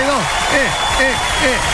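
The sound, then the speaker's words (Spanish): Applause for a butcher and rotisserie stall at a covered market: dense, steady clapping throughout, with talking over it. “grande el aplauso para Carnicería y Roticería Martínez, ahí en el local 62”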